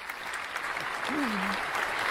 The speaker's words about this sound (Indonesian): Kita berikan tepuk tangan untuk regu C.